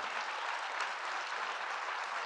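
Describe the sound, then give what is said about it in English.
Applause from an audience welcoming a guest at Red Ventures: dense, even clapping that holds steady for the whole stretch without a break. “Let's give him a hand.”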